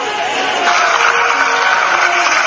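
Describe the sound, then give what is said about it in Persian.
A cinema audience applauds a film by Abbas Kiarostami, a loud, unbroken wash of clapping mixed with crowd noise and scattered cheers. “حالا این صدای دست زدن مخاطبان سینما در دنیاست برای عباس کیارستمی، چون به انگیزه کشف فیلم او رو تماشا کردن.”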